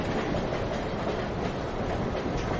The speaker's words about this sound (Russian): Поезд Москва-Брест. Ты мирно посапываешь под мерный стук колес.